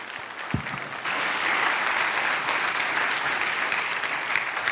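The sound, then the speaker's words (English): An audience applauds as a guest speaker is welcomed on Reformation Sunday. The applause is steady and dense from many hands, with a single low thump near the start, then an even wash of clapping. “Thank you for that sitting ovation.”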